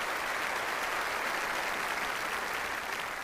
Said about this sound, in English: Let's give him a hand and welcome him again.